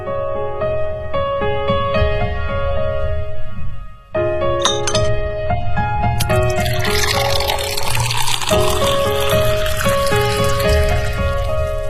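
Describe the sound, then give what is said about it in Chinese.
Liquid pouring and glass clinking as a cocktail is mixed from gin, blue curaçao, tonic water and ice: continuous splashing with bright chinks of glass and ice that thicken toward the end, with no voices. “是你的鸡尾酒，它是由金酒、蓝橙立交酒、汤力水和冰块调成的，名字叫做魔镜。”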